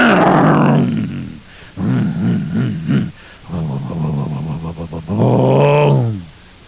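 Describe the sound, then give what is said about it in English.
A human voice imitates a modified 455-cubic-inch engine revving, with loud, growling, wavering tones that surge and drop in several bursts and end on a rising and falling rev. “all modified and man, just listen to that engine.”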